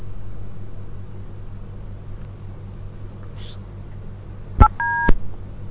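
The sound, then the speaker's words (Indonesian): A telephone call-in line cutting out: a low hiss of the open line, then two short electronic telephone tones. “terputus lagi ya kami mohon maaf kepada para pendengar yang telah mencoba menghubungi namun terputus”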